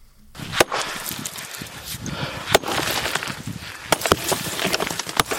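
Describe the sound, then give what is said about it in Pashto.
Sharp cracking strikes as a man breaks rocks by hand to build a dam in the mountains, a few irregular loud impacts standing out over a constant hissing background. “دا پچټک د کانو ماتولو شخص دی.”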